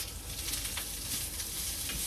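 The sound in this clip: Steady sizzling of vegetables and meat cooking on a grill, with the meat set in the middle after the vegetables went in first. The hiss is continuous and even, with faint crackles and no talk.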